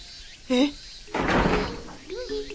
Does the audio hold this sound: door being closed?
yes